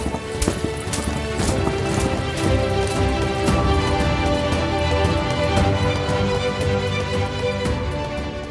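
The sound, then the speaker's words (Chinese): Horse hooves clip-clopping as a black horse with a golden mane pulls a carriage between villages; a steady, dense run of many clops keeps an even rhythm throughout at a constant loudness. “她和丈夫一起驾着马车穿梭在各个村庄之间，而拉着马车的正是那匹有着金色鬃毛的黑骏马。”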